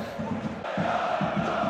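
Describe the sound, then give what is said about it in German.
Football supporters chant and cheer in their stadium fan block during a match against Wiesbaden, a dense crowd roar carrying a steady, rhythmic pulse of voices throughout. “Und unser Fanblock. Fantastische Leistung. Man hört es sicherlich im Hintergrund.”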